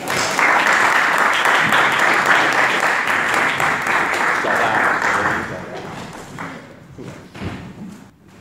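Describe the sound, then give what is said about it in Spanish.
An audience gives a warm round of applause to welcome a speaker before a lecture, loud, dense clapping for about five seconds that then fades into scattered claps and a few thuds. “recibirlo con un caluroso aplauso”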